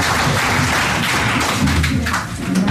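Steady applause from a group after a Yoruba riddle session. The clapping is dense and continuous, stays loud throughout and dips briefly near the end.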